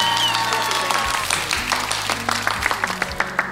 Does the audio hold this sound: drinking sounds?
no